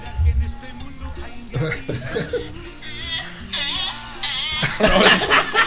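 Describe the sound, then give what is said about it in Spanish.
A donkey at an agricultural fair brays in wavering, harmonic cries that grow louder toward the end, mixed with people chuckling and talking. “¿Qué es eso, güey? Es un burro.”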